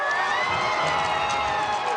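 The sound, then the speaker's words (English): Huge crowds welcoming Pope Leo at the royal palace in Madrid, a continuous roar of cheering and shouting voices that holds at an even level throughout. “huge crowds welcomed Pope Leo at the city's royal palace today.”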